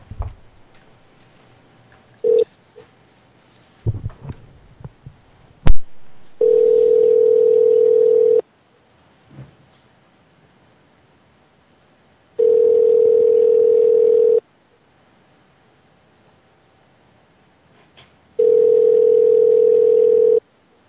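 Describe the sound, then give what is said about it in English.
A few clicks and taps on a telephone, then three long ringing tones of about two seconds each, separated by silent gaps of roughly four seconds, as a call goes out to a number that had just rung. “I'm going to call this number that just called us.”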